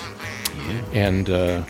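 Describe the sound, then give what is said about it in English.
Duck call blown by a waterfowl-hunting author, giving a few short nasal quacks that build into two louder, drawn-out quacks at the end. “he's great with a duck call.”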